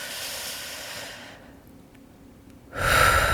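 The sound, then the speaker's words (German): Deep breath drawn in slowly, down into the belly: a soft airy hiss fades into near silence, then a louder rushing intake of air swells up at the end, with no speech. “versuch doch einfach mal ganz tief einzuatmen, schön in den Bauch”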